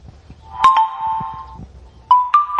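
Bright chiming jingle from a lottery app: a few ping-like bell notes, one ringing on in a sustained tone, then a quick run of more pings near the end, loud and clear with no talk.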